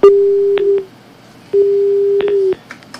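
Phone tones from a call that cuts off right after it is answered: two long, steady mid-pitched beeps separated by about a second of quiet line hiss, with a faint click at the end.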